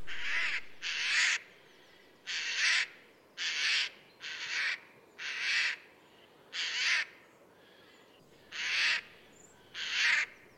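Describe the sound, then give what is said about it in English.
Harsh, rasping shrieks of a Eurasian jay in woodland: a long series of short, grating calls at a fairly even rhythm with a longer pause near the end, clear against a quiet background. “this harsh shrieking sound that they make, that's usually you'll hear that walking through a wood, and you realize, oh, there's a jay somewhere around here.”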